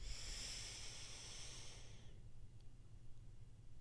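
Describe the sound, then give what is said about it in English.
A deep breath drawn in and held: a soft, airy inhaled hiss runs for about two seconds, then cuts off abruptly into near silence as the breath is kept in the lungs. “One more time, really holding in that breath and letting it get all the way into your lungs. In.”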